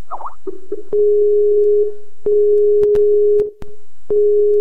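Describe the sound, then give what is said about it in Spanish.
A ringing tone on an outgoing phone call: a steady, loud, low electronic tone that holds with short breaks, cut by several sharp clicks, with no voices. “Pero simplemente hago la llamada y ya. Simplemente hago una llamada y ya.”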